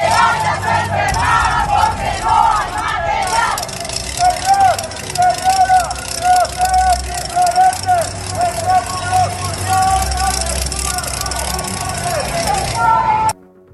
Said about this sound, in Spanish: el IMSS Delegación Veracruz Norte se suma a esta serie de protestas a nivel nacional y así fue como se escuchó en las calles de Jalapa.